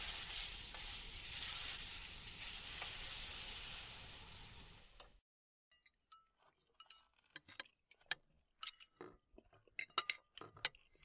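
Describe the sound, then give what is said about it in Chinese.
Food sizzles loudly in a frying pan during home cooking, a dense steady hiss for about five seconds that then cuts off, followed by scattered clinks and light ticks of utensils and glassware. “正好我在做饭”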